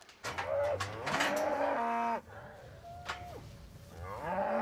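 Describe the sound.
Loud, drawn-out moos of mother cows on an island farm calling for their calves kept apart behind a fence; several long harmonic calls with wavering, bending pitch follow one another almost without pause.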